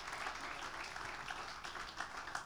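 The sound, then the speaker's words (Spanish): Applause from an audience during a celebration worship service: a continuous, fairly faint wash of clapping that stays even throughout. “Fuerte ese aplauso.”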